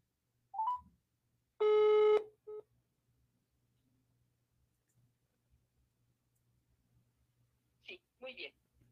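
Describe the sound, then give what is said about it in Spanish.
Electronic telephone tones as a phone is redialed: a longer beep followed by a shorter one, then a few brief chirping tones near the end, all fairly faint over a quiet background. “Te vuelvo a marcar, 2 segunditos.”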